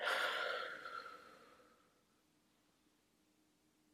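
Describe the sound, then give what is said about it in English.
A deep exhale during a guided breathing exercise: one long, airy rush of breath that starts strong and fades gradually over about two seconds into quiet. “And then when you exhale,”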